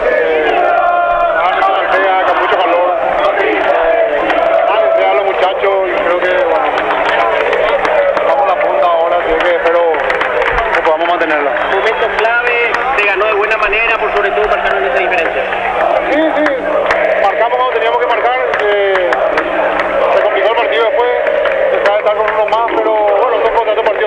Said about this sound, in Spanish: el público Olimpia que canta de alegría, van todos hacia el sector norte, prioridad Olimpia, canta el público de Olimpia, Nico. Sí, lo escuchamos aquí